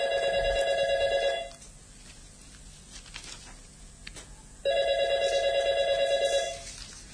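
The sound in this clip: A telephone rings on a call placed to a driving school, giving two long, loud electronic ring bursts separated by a quiet gap of about three seconds.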